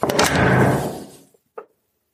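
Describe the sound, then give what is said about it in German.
A house's front door swings shut with a noisy, scraping rush lasting about a second. After a short pause comes a single brief, solid thump. “Wir schließen ein letztes Mal unsere Haustür.”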